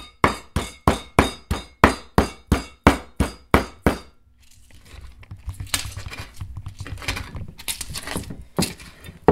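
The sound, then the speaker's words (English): Ingredients (onion, pepper, garlic and tomato) are pounded into a paste in a large mortar and pestle: a steady, rhythmic run of many sharp, loud thuds, then a continuous rough grinding and scraping noise with irregular bursts. “it's kind of like a gigantic mortar and pestle, and so we kind of just like grind all the ingredients together into like a paste.”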